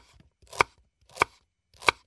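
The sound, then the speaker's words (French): A knife slices peeled onions on a board with three crisp, evenly spaced chops, each one a sharp thud with a little scrape before it, heard alone with no talking. “Éplucher également les oignons, puis les émincer.”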